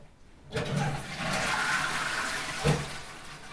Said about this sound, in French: Tu as officiellement réussi à réparer la chasse d'eau.